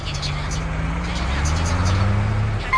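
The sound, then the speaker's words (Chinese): A city bus pulling away from a stop, its low, steady engine drone rising slightly in pitch as it moves off, with a voice speaking over it. “车辆起步，请拉好扶手。”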